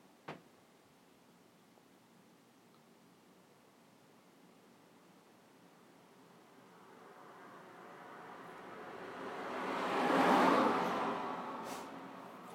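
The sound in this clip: A car drives along a road. Its faint engine and tyre noise swells slowly to a peak and then fades quickly over a quiet background hiss, after a brief knock at the start.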